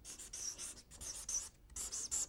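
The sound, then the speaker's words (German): A pen scratches across paper while someone writes a list of artists and speakers by hand, a run of quiet, hissing strokes broken by short pauses. “Moment, ich schreibe erstmal Künstler und Referenten auf.”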